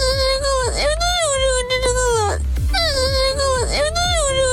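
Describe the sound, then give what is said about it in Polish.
A loud crying sound effect of wavering, high-pitched sobbing wails that rise and fall in two long, similar stretches, with rhythmic low thumps beneath and no talk. “Lepiej, żeby tak nie było. Będzie płacz.”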